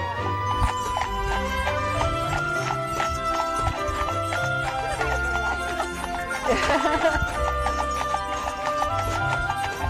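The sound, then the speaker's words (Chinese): Hooves clip-clop steadily as a horse-drawn carriage tours a vineyard estate, a continuous loud rhythm with a horse whinnying once partway through. “怎么样，坐马车逛庄园的感觉还不错吧？”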